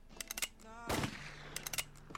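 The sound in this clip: A gun sound effect fires one sharp, loud burst that quickly fades, with people talking briefly before and after it.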